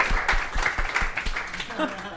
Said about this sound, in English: So do you think that's the only time anyone in this building has applauded piss?